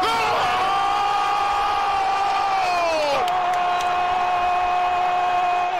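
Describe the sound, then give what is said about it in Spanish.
A crowd in Alcantarilla celebrates a Spain goal against France in a football match. Their loud, continuous roar carries sustained tonal shouts held on one pitch, which sags once partway through and then carries on steadily. “Y este era el sonido de la celebración en Alcantarilla”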